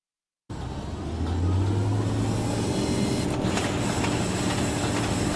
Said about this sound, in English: the sound of an oil rig in North Dakota right there in the oil fields